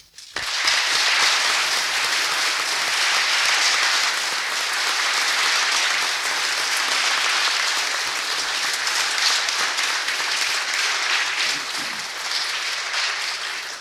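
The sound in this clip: Audience applause at a commemoration event, a dense, continuous roar of many hands clapping that holds steady and loud for over a dozen seconds before tapering slightly at the end.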